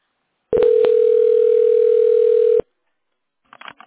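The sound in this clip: A steady, loud, single-pitched telephone line tone holds for about two seconds while a call is transferred, then cuts off, followed by a faint, brief crackle.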